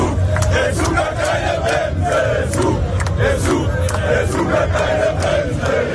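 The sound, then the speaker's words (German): German football fans celebrating in Times Square, New York: a loud, dense crowd of shouting and chanting voices keeps up a continuous roar for the whole stretch. “Die deutschen Fans sind auch schon ganz entspannt. Sie haben auf dem Times Square in New York ordentlich gefeiert. Und wir hören da mal rein.”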